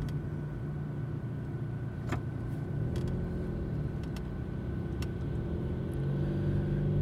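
A car drives along with a steady, low engine and road rumble that stays constant throughout, with a few faint clicks above it and no speech.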